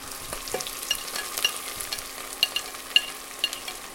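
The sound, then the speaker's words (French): Onions and garlic frying in oil in a pot for ratatouille: a steady, bright sizzle dotted with many sharp crackles and pops, with no voices. “Donc là, je vais mettre l'huile euh, sur euh, le feu. Faut que ça recouvre totalement le fond de la marmite. On va mettre les oignons avec l'ail.”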